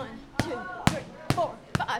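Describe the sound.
Four sharp, evenly spaced punches land during a boxing workout in a Columbia, South Carolina gymnasium, with a voice speaking between the blows.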